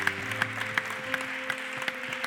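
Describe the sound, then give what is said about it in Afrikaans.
A church audience applauding at the close of a Sunday service: a steady, dense patter of many hands clapping, with a few sharper accents standing out at irregular moments. “Kom ons cheer asseblief almal. Almal.”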